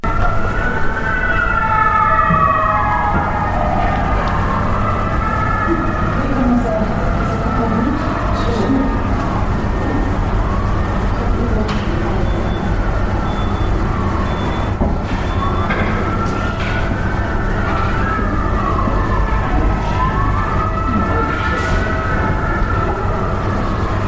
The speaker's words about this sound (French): chaque fois qu'une ambulance passe, même question.